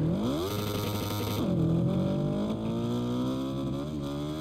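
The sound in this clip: A motorcycle engine in a racing video game whines upward in pitch, drops sharply at a gear change, then climbs steadily again, with no talk over it.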